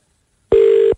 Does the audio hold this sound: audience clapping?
no